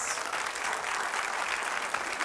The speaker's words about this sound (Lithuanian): Dovilė Filmanavičiūtė, pasitikime plojimais